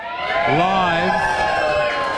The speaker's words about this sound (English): Give us a cheer, crowd.